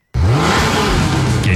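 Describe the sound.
A car engine revving at a summer car meet: a loud roar that starts abruptly and holds a deep, rough growl for about a second and a half, with a brief higher whine near the end.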